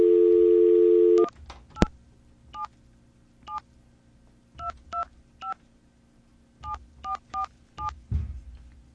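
A telephone dial tone hums steadily, then cuts off as an 877 number is dialed on a keypad, followed by many short touch-tone beeps in small, irregular groups with quiet gaps between them.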